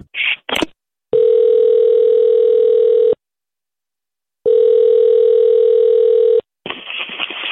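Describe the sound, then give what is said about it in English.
Telephone dial tone: two long, steady, loud tones separated by a stretch of silence, with brief clicks and bursts of noise at the start and again at the end. “I'm going to call Tom and tell him what you're doing.”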